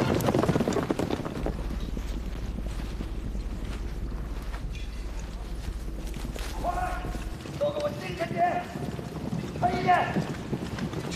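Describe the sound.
Hooves of a cavalry company's horses galloping together, a dense, continuous drumming clatter with rushing noise throughout, joined near the end by raised voices over the running herd.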